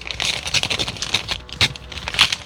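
A paper envelope being torn open after a struggle to open it: crisp, papery rips and crackles arriving in a series of sharp bursts, fairly loud and close, with no talking.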